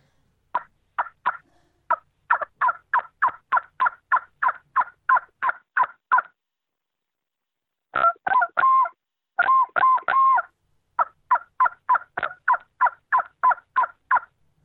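A turkey hunting call blown by mouth gives rapid series of many short, nasal hen yelps. Two brief raspier bursts interrupt the series before the steady run of yelps resumes.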